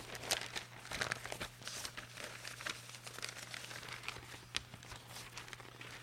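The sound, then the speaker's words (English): Soft paper crinkling as a page of a rare book on the history of mathematics is folded out: faint, dry rustles with a few sharper crackles scattered across the quiet stretch. “As I fold out this nice page.”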